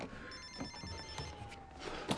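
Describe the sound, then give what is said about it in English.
A telephone rings quietly with a steady, high electronic tone over faint background noise. “He grabs the phone.”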